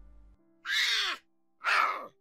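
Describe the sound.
Two harsh, raspy calls from a stray cat. Each is a loud noisy burst about half a second long with a falling tone underneath, and a short pause separates them.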